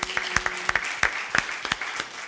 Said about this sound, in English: Give the Lord one more hand clap.